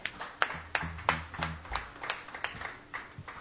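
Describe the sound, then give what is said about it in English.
An audience at a Sunday night songwriters' stage applauds a performer with scattered, irregular hand claps of moderate loudness, sparse rather than a full ovation. “But for now, please put your hands together. Give a warm first-time welcome to Brennan Murray.”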